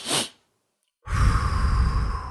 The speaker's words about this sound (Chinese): 你可以用鼻子吸气两次，然后用嘴做一个长长的吐气的过程。它听上去就像是这样子的：先是吸气，然后吐气。